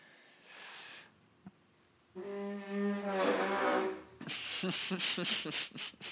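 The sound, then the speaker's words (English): A big deep breath drawn in, a short airy hiss, followed by longer voiced sounds and a run of rhythmic bursts. “that sounded like you did that because right before that you took a big deep breath in”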